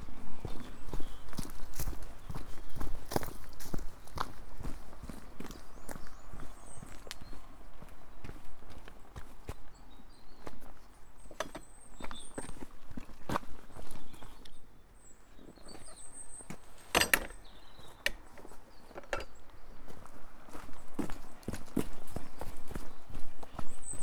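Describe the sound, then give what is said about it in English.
Footsteps walking along a cliff path: many steady, crisp steps in an even rhythm that continue throughout, with faint bird calls above them. “Walking along Trelugan Cliff, and the sun's back out again.”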